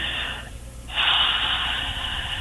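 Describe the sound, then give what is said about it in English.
A person breathes out deeply in an airy, sigh-like rush of breath. A brief break is followed by a stronger, longer exhale that carries on to the end. It is fairly faint and heard without talk. “I just love the way you breathe. Can you do that one more time?”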